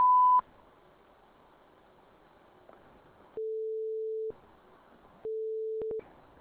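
Automated beep tones on a Swiss telephone line prompting a caller's input: a short high beep, then two longer, lower steady tones separated by a pause, over faint line hiss.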